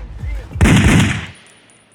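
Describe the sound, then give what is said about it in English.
Gunshot at a traffic stop where a police officer is shot, at 29th Street and Florin Road in Sacramento: one sudden loud blast with a rough noisy tail that fades over about half a second, then another abrupt loud onset at the very end. “Code red. Officer down. 29th Street and Florin Road. Gunshot wound to the face.”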